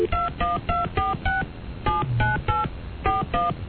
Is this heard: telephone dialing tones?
yes

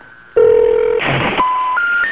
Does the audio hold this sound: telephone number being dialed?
yes

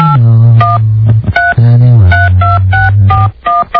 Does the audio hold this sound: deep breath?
no

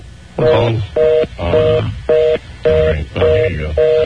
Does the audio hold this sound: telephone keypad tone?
yes

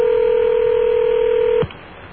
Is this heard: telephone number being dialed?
yes

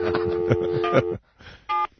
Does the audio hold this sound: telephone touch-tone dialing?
yes

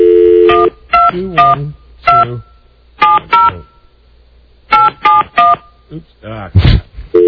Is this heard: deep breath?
no

